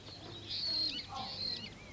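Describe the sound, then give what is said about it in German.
Starlings chirp in a garden: faint, high, thin chirps and short whistles come in a few scattered bursts over a steady low hum. “Die Stare zwitschern.”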